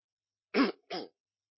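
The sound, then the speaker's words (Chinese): A person clears their throat before singing a hymn, giving two short, rough rasps with a brief gap between them. The first is slightly stronger, and the rasps are heard alone against silence. “请个清喉咙先”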